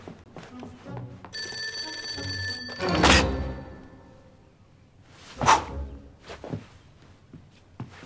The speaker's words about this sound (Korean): 전화예요.